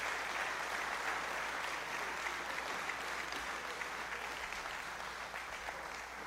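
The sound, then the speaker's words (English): Applause from a church audience welcoming a youth pastor to the front at a morning service: a dense, continuous patter of clapping, steady and without talk. “So would you put your hands together and let's welcome Pastor Clinton to the front this morning.”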